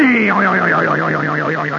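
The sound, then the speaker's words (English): A voice imitates a toaster's spring jerking loose and popping up: one loud, drawn-out boing that slides quickly down in pitch, then holds with a fast, even warble to the end, with no other sound. “He got it loose. The spring went,”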